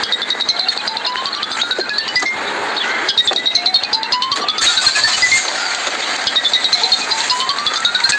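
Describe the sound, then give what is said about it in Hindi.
A mobile phone rings with a looping electronic tune. Bright rising sweeps and tinkling tones repeat steadily and fairly loudly. “Sir, आपका phone बज रहा है, या तो इसे उठा लीजिए या फिर साइलेंट कर दीजिए।”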